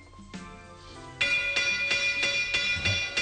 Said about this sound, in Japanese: もう誰かがこれ以上喋るなって鐘を叩いてるような気がして私はならないんですが